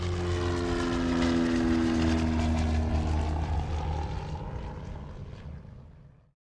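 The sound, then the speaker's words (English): An airplane taking off, its propeller engine droning loud and steady with a strong low hum, then gradually fading away to silence. “So, fasten your seatbelts, all of you globetrotters and adventure seekers, as we prepare for takeoff.”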